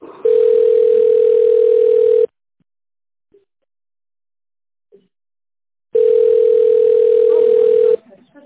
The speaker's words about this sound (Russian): оставайтесь на линии, я вас сейчас переведу.